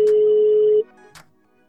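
An outgoing telephone call rings: one steady, clear ringback tone holds for under a second and then cuts off, followed by a faint brief click.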